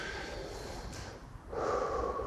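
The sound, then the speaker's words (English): A deep breath drawn in, a soft airy hiss that swells into a louder, rushing inhale during the final second, quiet overall with no talk. “I just want to invite you to take a moment to take a deep breath”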